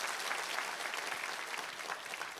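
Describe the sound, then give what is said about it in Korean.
Congregation at a church gathering applauding in encouragement after a worship leader's singing, a faint but steady, even patter of many hands clapping throughout. “우리 한번 힘찬 격려 박수 부탁합니다.”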